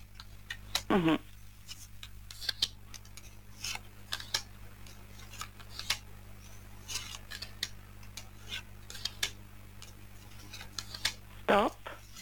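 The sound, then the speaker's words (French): Playing cards are laid down one after another in a card trick, giving many sharp, crisp snaps spaced irregularly, with a voice briefly heard near the start and again near the end. “je vais déposer les cartes les unes après les autres”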